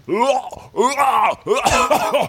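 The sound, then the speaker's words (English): A voice imitates the groaning of a man having a tube pushed down his throat in a hospital: three strained, wavering moans with brief gaps between them, loud and throaty. “When I was at the hospital, some guy, I think it was getting a tube shoved down his throat, and that sounds like the worst thing ever, and I never want that to happen. He was just like,”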